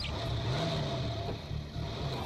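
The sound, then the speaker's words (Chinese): Car engine pulling away, a quiet low rumble with a faint throaty hum that rises briefly, steady and alone throughout. “安在田发动了车子，车子向寺院开去。”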